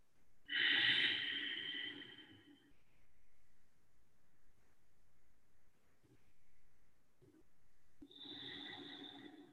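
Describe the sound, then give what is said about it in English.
Slow, deep breathing during a guided meditation: two long, loud, airy breaths, one at the start and one at the end, with a quiet pause between them. “Hear your breath.”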